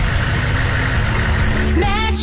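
A truck engine runs with a loud, steady, dense rumble that holds throughout, alone without voices.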